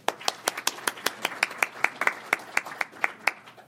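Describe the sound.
Audience applause welcoming a speaker at the Cato Institute, heard as many distinct, crisp claps in a fairly even, brisk rhythm, sparse rather than a dense roar.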